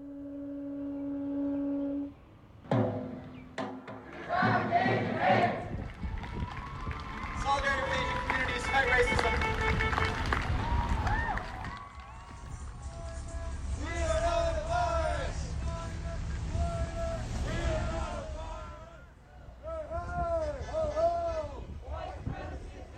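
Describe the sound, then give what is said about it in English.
A crowd shouts and chants at a Hawaii rally against anti-Asian hate. Many loud voices overlap and rise and fall together in a steady hubbub, with some individual calls standing out. “was a snippet of a Hawaii rally”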